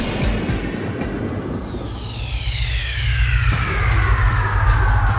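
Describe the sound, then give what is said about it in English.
An airplane takes off with a steady roaring engine rumble that grows louder toward the end, while a high whining tone sweeps downward in pitch. “Attention passengers, please fasten your seatbelts, put your seatbacks and sleeping pets in their full upright position, and prepare for takeoff.”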